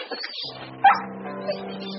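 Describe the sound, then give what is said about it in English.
A dog whimpers and whines softly in a low, wavering, continuous tone, with a sharper yip near the middle. “There's a good doggy.”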